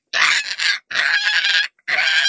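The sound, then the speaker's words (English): A flock of Archaeopteryxes calling as they fly in: loud, harsh honking squawks in three dense bursts separated by brief gaps. “That sounded like Chirpy, but a whole bunch of Chirpies. Whoa, a whole bunch of Archaeopteryxes are flying in and attacking the Trackerbot bees.”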